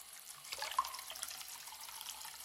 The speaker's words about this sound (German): So, ein Stöpsel rein. Wasser ins Waschbecken.